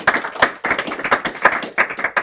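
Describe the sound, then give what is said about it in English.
Audience applause for two expert guests: a small group claps in brisk, irregular bursts of distinct, sharp hand claps, fairly loud and steady across the whole stretch with no voices. “Please give these two wonderfully expert guest a big round of applause for joining us today.”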